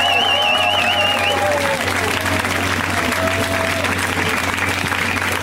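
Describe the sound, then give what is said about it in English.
Loud, steady applause and cheering from a comedy show audience welcoming a comedian to the stage. The dense clapping holds evenly throughout, with a few high whoops early on. “Ladies and gentlemen, Mr. Derek Sheen. Give it up for Derek.”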